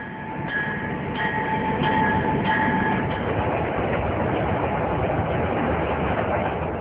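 A train travelling on rails, a loud, steady rumble throughout with a few faint high tonal pings in the first half and no voices.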